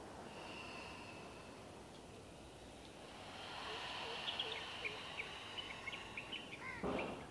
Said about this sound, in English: Take a deep inhalation. Open your mouth and exhale completely. Once again.